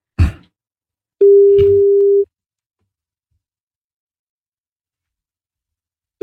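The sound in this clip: Ringback tone of an outgoing telephone call: one steady, mid-pitched tone lasting about a second, then silence, with the next tone just starting at the end. A faint click is heard before the first tone.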